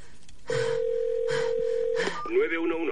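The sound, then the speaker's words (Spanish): Mobile phone dialing an emergency number, held by a man buried alive in a coffin: a steady electronic tone with short beeps over it, then a brief cluster of other warbling tones. “Comienza a marcar el número de emergencias en el móvil y llama.”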